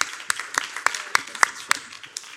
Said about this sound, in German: Also ja, Respekt an alle Eltern. Wir können einfach mal einen Applaus geben.